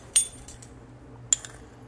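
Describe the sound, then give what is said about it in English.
A teaspoon clinks against a bowl as half a teaspoon of salt goes into chocolate chip cookie dough, with two light, sharp clinks about a second apart, each followed by a fainter tap. “Okay, there goes 1/2 teaspoon of salt.”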